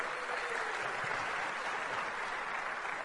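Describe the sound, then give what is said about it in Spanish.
Steady applause from an audience, a dense, even wash of clapping that holds at the same level throughout. “un fuerte aplauso para mi diamante.”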